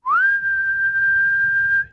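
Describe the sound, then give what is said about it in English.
A single whistle used as a call, sliding quickly upward and then holding one steady, clear high tone for nearly two seconds before stopping, over a faint low rumble. “God whistles,”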